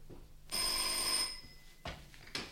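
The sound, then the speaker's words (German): A telephone bell rings once in a single bright, metallic ring lasting under a second, followed by a couple of brief, fainter knocks. “Da klingelte das Telefon.”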